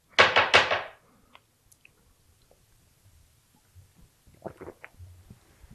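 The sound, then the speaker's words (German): Loud gulping swallows as someone drinks right after a toast, a dense burst of wet throat sounds lasting about a second, then near silence with a few faint, softer swallowing noises toward the end. “Ich habe gelesen, dass sich Leute über die sehr lauten Schluckgeräusche beschweren. Ja. Ich glaube, bei mir war eben gerade wieder sehr laut.”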